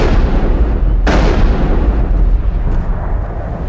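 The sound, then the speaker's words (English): Gunfire in a sci-fi video game as a character shoots a gun into water: one sharp blast cuts through a loud, steady roar of dense noise. “I see Rex shooting his gun into the water, but the water doesn't actually splash.”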